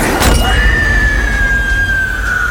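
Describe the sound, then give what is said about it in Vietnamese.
A glass liquor bottle smashed over someone's head: one loud, sharp shattering crash at the start, followed by a lingering high ringing tone. “Kinh hoàng nhất là khi ông ấy cầm một chai rượu và đập thẳng vào đầu của Hiền.”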